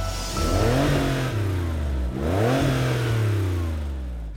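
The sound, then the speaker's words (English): Porsche 911 Carrera engine revving, with two rising surges in pitch separated by a brief dip, over a loud, continuous throaty engine drone with no talk. “The Porsche 911 Carrera.”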